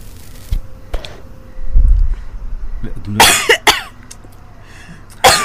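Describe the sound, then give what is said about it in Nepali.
Harsh coughing from a first-time smoker after inhaling smoke, a short cluster of loud coughs following a stretch of low voices and muffled noise. “मैले जसरी ताना अनि धुवा सबै ननिन है, खोकी लाग्छ नि पहिलोचोटि।”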